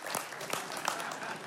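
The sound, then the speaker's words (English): Audience applause in a church during a sermon: a steady, fairly faint crackle of many hands clapping that lasts the whole clip, with a few slightly sharper claps poking out. “you can clap about that if you want. Just commit.”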